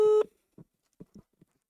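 A telephone call rings unanswered: one short, steady, harmonic-rich tone, followed by a few faint, soft low blips.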